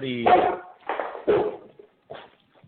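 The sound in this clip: A dog barking in the background, a few short, sharp barks in separate bursts, fairly faint and spaced unevenly.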